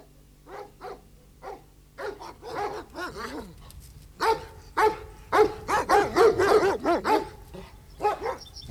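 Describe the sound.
A dog barks many times in short, irregular bursts that grow denser and louder midway, mixed with higher yips. No one talks.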